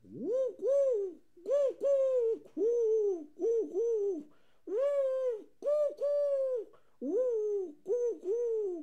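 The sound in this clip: Wood pigeon cooing: many rhythmic, hooting coos in short groups separated by brief pauses, fairly loud and with no other sounds.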